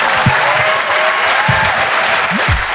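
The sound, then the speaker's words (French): Audience applause fills a stand-up comedy show in Paris: dense, steady clapping runs loud and unbroken through the whole clip. “Voilà, n'applaudissez pas sur ça, on est à Paris, je sais. Non. À Paris, les gens, ils applaudissent plus sur ça.”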